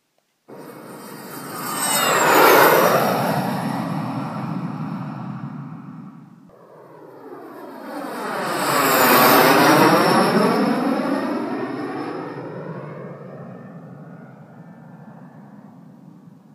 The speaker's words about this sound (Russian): над их головами вдруг раздался звук двигателя, а через секунду промчалось два дискава, выдерживая курс на юг в эпицентр сражения